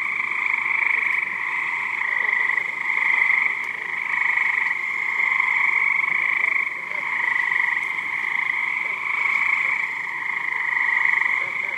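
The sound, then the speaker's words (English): Cricket frogs in New Jersey, small dark green frogs calling to females, form a dense chorus of steady high-pitched trilling that swells and dips in loudness throughout. “The frogs are from New Jersey, and they are cricket frogs. They are small, dark green in color. They sound that way because they are calling out to female frogs.”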